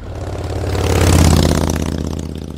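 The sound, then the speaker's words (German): Early-morning street traffic of cars and motorcycles: one engine rumble swells to a peak near the middle and then fades as a vehicle passes, alone without talk. “Auf der Straße waren ganz viele Autos. So früh am Morgen ist auf den Straßen schon sehr viel los. Da fahren Autos, Motorräder,”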